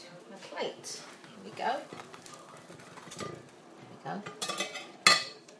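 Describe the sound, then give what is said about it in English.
Metal utensils clink and scrape against a frying pan as fry bread is transferred out of it, with faint sizzling underneath and a sharp clank near the end. “Fry bread? I think you're done. So I'm now going to transfer you.”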